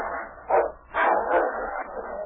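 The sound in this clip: Dogs fighting, a bigger, stronger dog against a wolf dog, with a few muffled barks and growls in quick succession over a dull, low hum, no talk.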